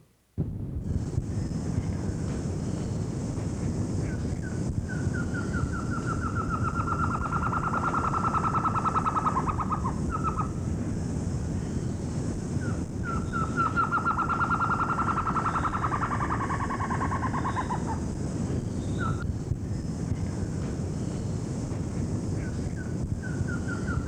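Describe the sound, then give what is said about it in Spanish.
A trogon calling in Colombian forest gives rapid runs of repeated mid-pitched notes, two long series that drift slightly lower, plus a few scattered notes, over a steady background hiss. “Acompañaba una mosca, pero ahora viene un trogón.”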